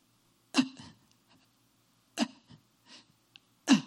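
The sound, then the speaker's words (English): Voice imitating the gasping, struggling breath of an asthma sufferer: three loud, harsh, rasping gasps, evenly spaced, with a few fainter catches of breath between them, heard alone. “And maybe only an asthma patient can relate to this, but this is how you breathe in hell. It was like,”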